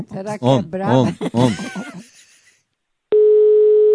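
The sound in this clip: A telephone dial tone heard while placing a call: one steady, mid-pitched continuous tone lasting about a second. It starts after a stretch of talking and a short silence.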